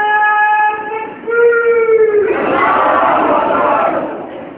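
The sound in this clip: A crowd at a religious gathering chants a slogan: a drawn-out, sustained voiced call rings out first, then a loud massed shout from many voices answers it and holds before easing off.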